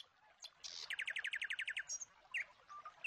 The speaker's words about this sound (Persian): گوش کن، می شنوی؟ صدای چهچهه بلبل،